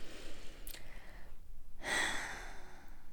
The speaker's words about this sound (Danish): Og hvis du tager en dyb indånding.